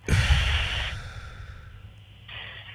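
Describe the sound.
A slow, deep breath drawn in and then let out during a guided breathing exercise with hands on the head. A long airy inhale comes first, then a quieter pause, then a shorter breathy exhale near the end.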